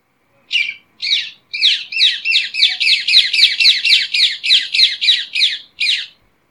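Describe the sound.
Ring-necked parakeets call loudly in a rapid run of many harsh, shrill squawks, evenly spaced and steady in pitch, with no talking.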